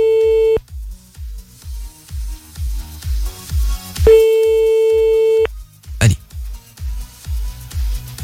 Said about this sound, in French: Et puis on appelle maintenant, c'est parti, allez hop.